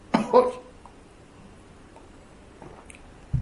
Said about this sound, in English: Sometimes when you're speaking, you just suck in wind at the wrong at the wrong moment, and just it's like Chas Hashem, I'm choking.